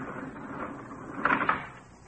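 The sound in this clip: Elevator door clunking, two brief knocks close together over a low, faint hum.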